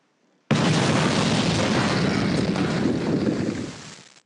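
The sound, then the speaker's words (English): Dynamite explosion sound effect: one sudden, loud boom that swells into a dense, rumbling roar, holds for about three seconds and then quickly dies away. “Boom goes that dynamite. Finally, first time tonight, I was waiting for somebody to make that dynamite go off.”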